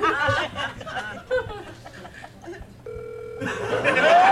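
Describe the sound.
On an outgoing call, a single short, steady ringback tone sounds between stretches of people talking.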